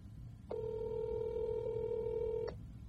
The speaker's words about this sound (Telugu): We have our caller on call. ఇప్పుడు చూద్దాం వాళ్ళు ఆన్సర్ చేస్తారో లేదో.